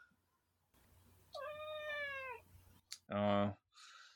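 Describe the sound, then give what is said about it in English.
A vocal female cat meows twice: first a long, steady, tonal call, then after a pause a shorter, louder meow. “Oh, that's your cat. Holy shit. That's my cat.”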